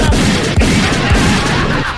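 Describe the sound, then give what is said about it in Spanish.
Pistol gunshots go off in quick succession, a few heavy, booming blasts about half a second apart over a loud, dense wash of noise. “Este amigo me pidió puros balazos, no, menos mal que mi compadre Marquito Gallardo, el charro de Chile, que en paz descanse, me dejó bien cargada la pistola este cabrón.”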